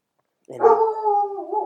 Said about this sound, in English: And sorry about the dogs.